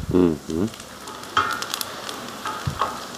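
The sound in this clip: Onion frying in a pan as it turns golden gives a steady, crackling sizzle with a few light stirring clatters, and a voice is heard briefly at the start.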